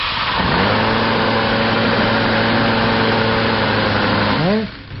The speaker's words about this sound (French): Ce que l'on entend, le bruit que l'on entend, c'est quoi, oui ? les petites palettes qui viennent se plaquer sur le stator quand il tourne à grande vitesse et ça les entraîne.